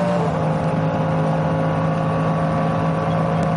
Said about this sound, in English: he's overtaken the third batch of cars, yep. The second batch, unless my sighting wasn't as good as I thought it was, but he certainly went past a Cayman of some shape.